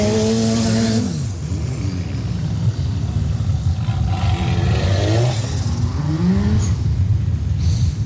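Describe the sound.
Engines of standard-class race cars driving onto the track roar loudly and continuously, with repeated revs that climb in pitch and then drop away as the cars move off.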